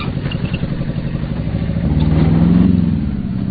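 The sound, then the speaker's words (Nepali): Engine of a mini truck with a low cargo bed, loaded with milk, curd, buttermilk, ghee, paneer and khoa, driving through a busy market in Damak at 6 a.m. A steady mid-pitched motor hum swells in the middle, then eases back. “बिहानको 6 बजे दुध दही मही घिउ पनिर र खुवा बोकेको होचो डाला भएको मिनी मोटर दमकको व्यस्त बजार छिचोल्दै उभो शरणार्थी शिविरतिर लाग्छ।”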